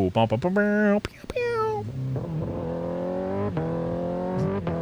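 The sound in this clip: A motorcycle engine revs hard through several quick-shifter upshifts. Its whining tone climbs, then is cut sharply at each shift before climbing again.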